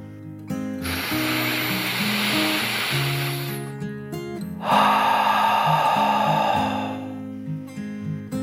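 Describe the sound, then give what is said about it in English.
A deep, slow breath drawn in and then let out, heard as two long airy rushes of a few seconds each over soft, sustained low tones. “Pete took a deep dragon breath in and out.”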